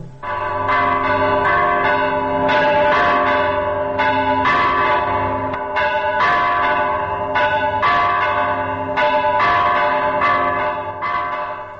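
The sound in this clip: Church bells ring at the Georgian Monastery of the Cross in Jerusalem, recorded in 1967, with many loud, overlapping strikes of several bells in a steady, ringing peal.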